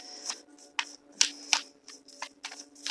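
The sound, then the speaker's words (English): Tarot cards being shuffled again and again, a string of crisp, papery riffling bursts with short pauses between them, each a quick bright flutter rather than a steady hiss. “Shuffling the cards again.”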